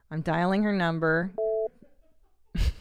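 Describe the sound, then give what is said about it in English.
A telephone tone sounds while a number is dialed for an online call. A long, pitch-varying voiced sound comes first, then a brief steady two-pitch tone, then silence and a short noisy burst. “I'm dialing her number.”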